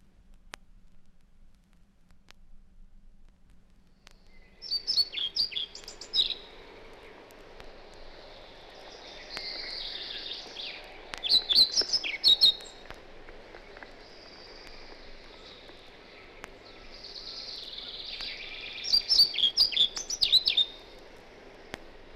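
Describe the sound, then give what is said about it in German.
A pied flycatcher, a tiny songbird of conifer branches, sings three high, thin, whispering phrases with a galloping rhythm and a longer closing note, each separated by quiet pauses, with no voices. “Die wispernde, helle Stimme ist im Gezweig der Nadelbäume nur ganz in der Nähe hörbar. Sehr einprägsam ist der galoppierende Gesangsrhythmus und der variable, längere Schlusslaut.”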